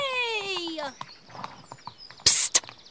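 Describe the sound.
Horse hooves clip-clop while the horse is ridden on a farm: a descending whinny comes first, then a few hollow, unevenly spaced clops.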